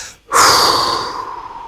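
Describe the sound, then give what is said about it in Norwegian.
A single loud breath, a rushing, airy burst that starts abruptly and slowly fades over about a second and a half, with no talking. “jeg puster inn, jeg puster ut”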